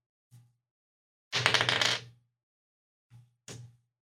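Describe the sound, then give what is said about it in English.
A six-sided die is rolled for a tabletop game, heard as four quiet knocks with silence between them. The second is a longer rattling clatter. “So I will place this card face up and roll D6 for the candles.”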